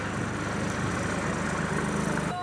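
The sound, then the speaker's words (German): A taxi's engine rumbles low and steady as it arrives, a continuous idling hum that cuts off abruptly just before the end. “Ja, unser Taxi würde gleich kommen und würde uns unterfahren.”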